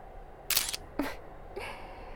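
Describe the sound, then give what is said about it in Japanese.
A camera shutter fires as a photo is taken: a few quick, bright mechanical clicks in close succession, faint and with no talk. “ほら、撮るよ。”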